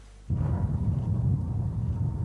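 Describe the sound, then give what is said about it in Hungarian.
Gripen fighter jets fire at ground targets during a military exercise in the Bakony hills. A heavy, continuous low rumble bursts in abruptly after a brief quieter moment and keeps rolling, loud and dense, to the end with no voices. “A Gripen vadászgépek földi célpontokra tüzelnek.”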